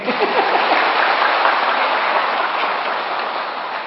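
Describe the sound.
Audience applause at a talk, a steady dense wash of clapping that holds evenly for a few seconds and eases slightly toward the end.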